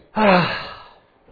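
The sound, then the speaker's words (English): A deep breath taken together by children during a church service: one long, breathy intake with a voiced, sigh-like tone that starts strongly and fades away over about a second. “Everybody do like this. Take a deep breath.”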